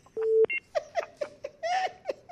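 Incoming call signal on a radio call-in show: a steady electronic tone, then a run of short bleeping bursts at an uneven rhythm.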